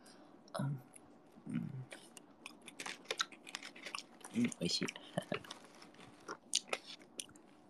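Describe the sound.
Close chewing and biting of crunchy food in an eating ASMR setting: many quiet, crisp crackles and crunches in an irregular rhythm, with a few faint low murmurs.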